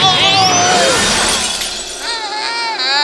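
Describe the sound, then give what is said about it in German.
A dropped ball shattering with a loud, bright crash of breaking glassy pieces, set among sustained, melodic tones that waver in pitch. “Meine Kugel! Er hat die Kugel runterfallen lassen.”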